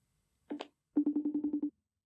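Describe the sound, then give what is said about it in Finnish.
A telephone call is dialed: a brief pair of electronic beeps, then a quick run of many short, evenly spaced low tones, faint and alone. “No, ehkä mä soitan sille.”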